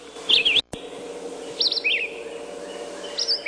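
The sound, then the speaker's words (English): Red-eyed vireo singing: a few short, high, slurred whistled phrases, each separated by a pause, over a steady low background hum. “That's the song of the red-eyed vireo.”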